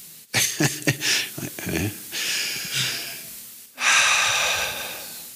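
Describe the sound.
Slow, deep breathing done as a calming exercise for anxiety: after a brief stretch of voice, two long, airy breaths follow, each lasting about a second or more, soft and steady.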